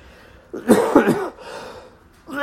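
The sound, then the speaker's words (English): A few short, dry little coughs, a side effect of blood pressure medicine, come in a cluster, followed by a quieter stretch and another cough starting at the end. “They put me on a new blood pressure medicine that for some reason has one of the side effects is these little coughs.”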